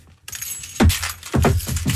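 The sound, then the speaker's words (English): Car keys and two apples are juggled: a metallic jangle of keys, then a few soft thuds and clinks as the objects are caught and tossed in an uneven rhythm. “Okay, so you've got two apples and my car keys. Let's see. Juggling on the radio, everybody.”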